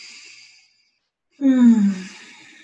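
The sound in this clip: A deep breath: a faint airy inhale, a short silence, then a loud voiced sighing exhale whose pitch drops as it trails off.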